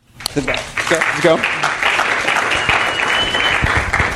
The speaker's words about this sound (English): I wanted to start by giving him another round of applause